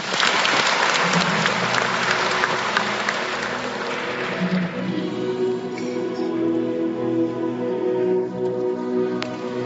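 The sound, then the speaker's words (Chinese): Audience applause after a speech at a conference's closing session: dense, steady clapping from many hands that holds at an even level, then thins and softens through the second half. “我们再次把掌声送给戴国梁先生”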